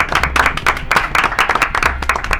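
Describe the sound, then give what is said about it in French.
Group applause closing a show as the hosts thank their listeners: many sharp, distinct claps in a loose, fairly loud rhythm, with no voices over it. “Alors je propose qu'on s'applaudisse tous ensemble et qu'on applaudisse, attendez, les auditeurs”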